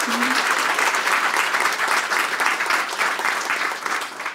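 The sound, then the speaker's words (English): An audience applauds at the Sydney Writers Festival, with dense, steady clapping that lasts the whole four seconds and eases only slightly at the end. “Manal, welcome to the Sydney Writers Festival. Please put your hands together.”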